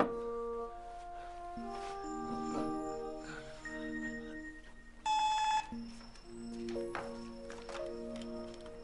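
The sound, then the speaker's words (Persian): A doorbell rings at the door as a single short, bright electronic buzz that stands out loudly over a steady musical background. “ساعتی بابا دارن زنگ میزنن.”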